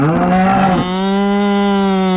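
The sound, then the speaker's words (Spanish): A cow gives one loud, drawn-out moo that holds a steady, nasal tone for about two seconds with nothing else around it. “A ver, vaquita, muje, pero en 3, a ver, muje en 3, 2, 1.”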